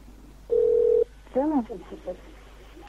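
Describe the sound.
Ringback tone of an outgoing telephone call: a single steady electronic tone lasting about half a second, followed by a voice talking.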